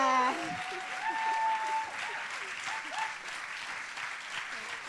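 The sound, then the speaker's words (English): Applause and cheering from a worship audience after a prayer, with voices calling out over loud, dense clapping that eases off slightly toward the end. “Come on, let's give her another round of applause.”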